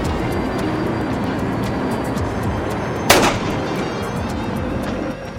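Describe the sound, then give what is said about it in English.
A single gunshot rings out as someone fires their last bullet, one sharp, loud crack that stands out against a steady, low rumbling background noise. “I've got one bullet left, and it's got your name on it”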